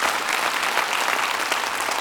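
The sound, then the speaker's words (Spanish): Applause from a church audience giving praise to God: dense, continuous clapping at a steady, fairly loud level with no voices. “¿Puedo dar un aplauso a Dios por ello?”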